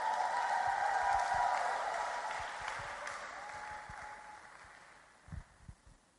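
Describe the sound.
Congregation applause in a church welcoming a man up to give his testimony, a dense clapping wash that fades steadily over held musical tones, ending with a few low thumps.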